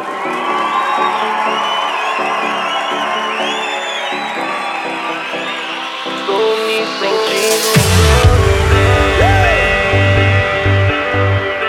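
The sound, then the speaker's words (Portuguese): A crowd applauds, cheers and whoops to welcome DJ Skill, shouts rising above the roar. Partway through, music starts with a heavy thumping bass beat under the continuing cheers. “recebam com uma salva de palmas, DJ Skill!”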